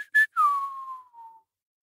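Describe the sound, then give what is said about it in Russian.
A person whistling: a couple of short, high whistled blips, then a long clear whistle that glides steadily downward in pitch and fades out. “даже присвистнул.”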